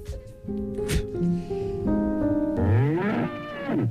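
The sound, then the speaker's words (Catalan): A mule brays in a few drawn-out, harmonic calls that waver up and down, building into a louder, sweeping bray at the end. “Què és aquest? És la mula d'ahir. Però s'ha colat aquí.”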